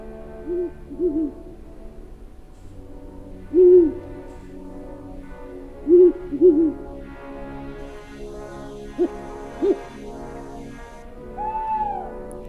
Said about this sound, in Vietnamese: Thỉnh thoảng đâu đó vang lên những tiếng cú kêu đêm, nghe đến rùng rợn cả người.